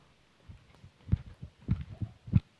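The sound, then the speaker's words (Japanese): Soft, low thuds from a criss-cross jump rope skipping challenge, landing in a fairly steady rhythm of several beats that grow louder toward the end. “あや跳びチャレンジ”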